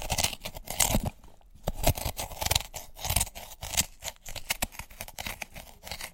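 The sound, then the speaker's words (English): Crunching and scraping of metal spoons chiselling out the insides of turnips, a dense run of many irregular crisp crunches at a busy, steady pace with no talk. “The crunching you're hearing, although it sounds like we're eating Monster Munch, is actually the noise of our spoons chiselling out the turnips.”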